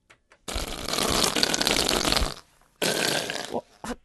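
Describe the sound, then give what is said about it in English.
A whoopee cushion deflating in a reverberation chamber lets out a long, loud, raspy blast of about two seconds. After a short pause comes a second, shorter blast. “the sound of a whoopee cushion was number 7”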